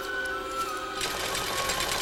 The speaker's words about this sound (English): Elderly people stitch pelts.